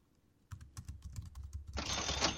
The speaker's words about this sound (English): I'm gonna type that in because I'm going to forget it later.